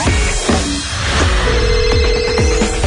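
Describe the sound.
Telephone ringing on a Romanian morning radio call-in show, loud and busy, with a sustained ringing tone amid dense, clattering sound.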